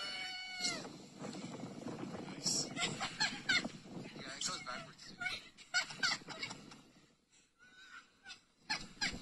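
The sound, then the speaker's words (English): Kids riding a sled down a snowy hill on a Brookline street laugh and shriek in repeated high, excited bursts of voice, fairly faint throughout. “This is actually a kid's riding a sled. Very, very cool. Down a hill.”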